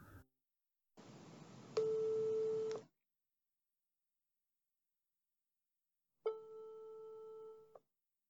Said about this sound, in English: today I dialed her number to find out.